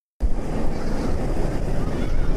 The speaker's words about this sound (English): This is the sound of Superman Ultimate Flight. Last ride of the day, it's just past 9 p.m.